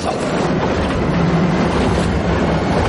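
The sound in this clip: A train runs on rails, heard from inside a carriage as a steady, loud rolling rumble with faint clickety-clack that stays even throughout, with no voices.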